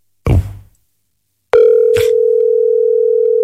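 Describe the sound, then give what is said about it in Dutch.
Telephone dial tone before calling a listener, preceded by a single clunk of the handset being picked up; the steady, loud hum then holds without a break, with one brief click near its start. “Ik ga meteen iemand bellen die iets heeft gestuurd.”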